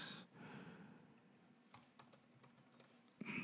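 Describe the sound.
Typing on a computer keyboard: a faint string of quick, light key clicks with soft breathy noise at the start and end.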